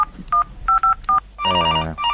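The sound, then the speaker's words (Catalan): Telephone tones: a few short dialing beeps, then an incoming call's bright, steady electronic ring. The sounds are loud and clear, with no voices. “Ens està trucant algú. S'està entrant una trucada abans que puguem acabar de marcar el número.”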